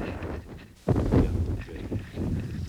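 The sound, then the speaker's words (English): Wind buffeting the microphone atop Mount Tabor, the highest of the Lower Galilee mountains; a low, rumbling gusty roar that surges abruptly after a quieter opening and then stays fairly steady. “I hope the wind is not making too much noise. We're at a great height up here.”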